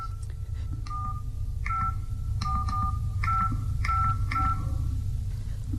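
Mobile phone keypad dialing: many short, bright beeping tones at an uneven pace, some in quick pairs, over a steady low hum.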